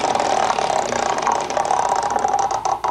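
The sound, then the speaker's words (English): Two number wheels on a counting game board spin with a steady mechanical rattle. A dense, even clatter runs through the whole clip with no voices. “To get a number on the board, you spin these two wheels. And my friend Jesse here is going to spin for me.”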